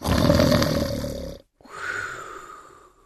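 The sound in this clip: A cat yawns in two long, breathy stretches split by a short silence. The first is loud and rough, almost like a growl; the second is softer and fades out.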